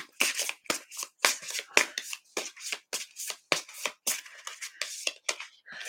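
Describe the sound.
A deck of oracle cards is shuffled softly, giving many quick, papery riffles and flicks in an uneven rhythm, faint and crisp, with no talk over them.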